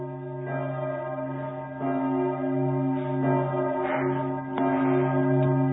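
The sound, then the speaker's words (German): A church bell rings with deep, layered humming tones, each stroke swelling and overlapping the lingering ring of the last, a few strokes in all, loud and steady with no voices. “Ein ganz schönes Beispiel auch für funktionalen Klang. Die Kirchenglocke in unserem Breitengraden,”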